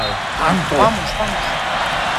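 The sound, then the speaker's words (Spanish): A stadium crowd in New Jersey chants "España" at a match. A short, rising and falling chanted phrase sounds early over a steady wash of crowd noise. “¿Qué grita el público? España grita la grada de New Jersey.”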